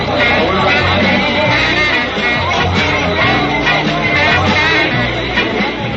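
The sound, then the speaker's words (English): A 1965 American discotheque crowd fills the room with loud, unbroken hubbub, shouts and yells over a dense, steady wash of sound. “This is the sound of the discotheque, the stereophonic dance craze that's sweeping America. And right here, what a scene it is.”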